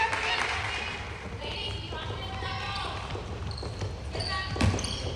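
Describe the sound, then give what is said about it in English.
Basketball dribbled during a Wolverines game: a few hollow bounces on the court, heard under play-by-play speech and crowd noise. “Passing it to Morgan at the corner. She's going to drive. That'll be a double dribble.”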